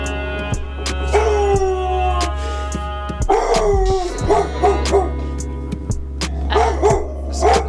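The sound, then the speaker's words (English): A guard dog barks again and again, sharp high barks mixed with yips and whining, loud over a steady low hum. “Excuse the guard dog. They get a little spooked around the spirits.”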